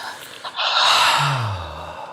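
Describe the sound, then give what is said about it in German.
A deep breath drawn in and let out during a guided relaxation, heard as one long, loud, breathy whoosh that swells and slowly fades, with no talk over it. “Atmen alle tief ein und wieder aus.”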